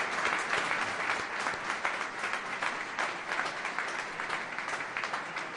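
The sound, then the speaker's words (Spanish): An audience applauds after a zarzuela performance, a dense, even wash of many hands clapping that stays steady and fairly loud throughout, with no voices rising above it. “Vamos a dar un aplauso”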